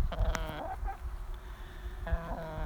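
Hen clucking close to the microphone, a few short harmonic calls in quick succession followed by another brief call after a pause, over a steady low background.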